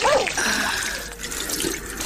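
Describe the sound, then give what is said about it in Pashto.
Water poured from a jug over hands for washing, a steady splashing stream that runs continuously for the whole couple of seconds, fairly loud and bright. “صبر، چې لوټکه کې اوبه واچوم.”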